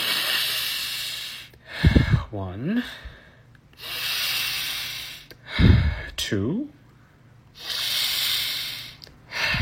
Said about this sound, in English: We're just gonna take 3 big breaths, actually.